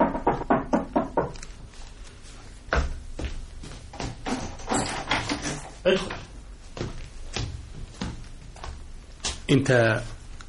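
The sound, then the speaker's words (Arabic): A quick run of several evenly spaced raps knocks on a door at the start, then voices talk through the rest. “رحت على المقنده ويدوبك قلعت هدومي عشان استريح شويه استعدادا لسهره الليل مع نرجس سمعت خط على الباب.”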